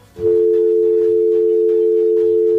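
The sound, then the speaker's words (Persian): A steady, unbroken mid-pitched dial tone follows a dropped phone call. It begins abruptly just after the start and holds at constant loudness to the end, with no talk over it. “فکر میکنم که تماس قطع شد.”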